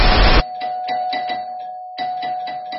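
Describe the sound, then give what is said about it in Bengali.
An electric calling bell rings at dawn, sounding a distinctive tune as two quick runs of bright, repeated chime tones over a steady ringing note, after a brief burst of noise. “পরদিন ভোরের আলো ফুটতেই calling বেলটা বেজে উঠল।”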